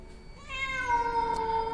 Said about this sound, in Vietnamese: Hồng Ngọc nhìn ra bên ngoài trời, trong cái màn mưa trắng xóa ấy, bỗng dưng có tiếng mèo kêu ngoao ngoao phát ra